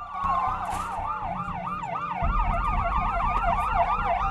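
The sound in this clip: An ambulance siren wails alone in a steady, fast up-and-down cycle over a low vehicle engine rumble that grows louder partway through, on a debris-strewn street.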